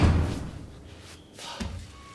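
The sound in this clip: A dull thud of someone bumping into a chair, one heavy low impact at the very start that fades away, followed by quieter low rustling.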